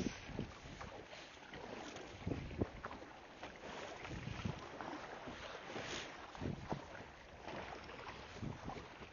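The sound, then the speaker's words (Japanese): Faint ocean waves and wind noise at sea while a boat is paddled or rowed with the upper body, a steady low wash of water and gusting air with a few soft, irregular surges. “しばらくちょっと波の音と風の音”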